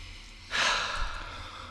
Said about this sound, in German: mal normal ein- und ausatmen